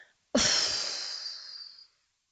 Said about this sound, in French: Inspirez, soufflez.